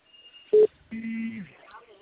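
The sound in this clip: Telephone dialing to call a client: a thin steady tone, then a short loud keypad beep, followed by a longer buzzing tone.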